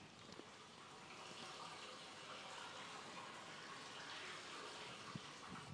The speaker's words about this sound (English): that's the drains.